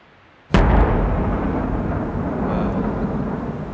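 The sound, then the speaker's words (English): A basketball dropped from a great height bursts with a single sudden, loud bang after a brief quiet. A dense, rushing noise follows and lingers steadily to the end. “The ball blew up. I have to admit, at that moment, watching that ball explode right where Jeff Boot had landed, I shivered at the violent parallel.”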